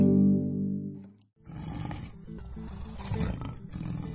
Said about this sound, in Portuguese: escutei um barulho como se fosse uma onça, uma pantera. Uma pantera!